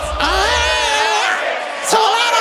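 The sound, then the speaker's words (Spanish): A large crowd sings along at a concert, many voices blending into one sustained, loud, wavering chorus that carries steadily through the whole stretch, with a slight swell near the end. “wow, qué bueno, pero qué bonito! Me vuelvo loco con tanta gente cantando.”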